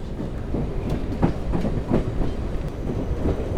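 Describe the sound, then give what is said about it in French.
A tourist train runs on rails with a continuous low rumble, marked by a few rhythmic wheel clacks over track joints. The steady rolling noise carries throughout, with no voices. “Je vous souhaite un bon voyage à bord de ce train.”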